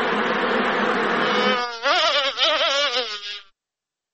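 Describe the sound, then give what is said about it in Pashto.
Honey bees buzzing at a bee farm in Helmand: a steady, dense droning hum that turns wavering and pulsing partway through, then cuts off abruptly near the end. “د هلمند کرهنی ریاست وای دوی د لشکرګا ترڅنګ په ناوی او نهرسراج ولسوالۍ کې د شاتو د مچیو لوی لوی فارمونه لري او عملا خلکو ته روزنه ورکوي.”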